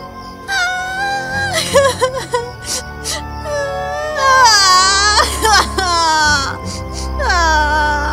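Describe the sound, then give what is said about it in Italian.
Two girls crying in a fairy tale, worn out from walking in a dark raspberry wood and falling onto the grass. Performers voice high, wavering sobs and wails in uneven bursts, with some whimpering between them. “Zoe e Chloe erano stanche di camminare e iniziarono a piangere cadendo sull'erba.”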